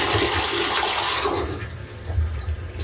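A small child-sized potty-training toilet flushes with a loud rush of water that gradually thins into a softer, lower swirl and gurgle. No voices.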